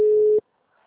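A telephone ringing tone while placing a call: a single steady, mid-pitched electronic tone that holds briefly, then cuts off abruptly into near silence.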